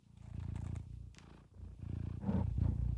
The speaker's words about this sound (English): she's purring really loud, so if the mic is picking that up, that's what's happening. Or maybe it's your ASMR. It's a cat purring.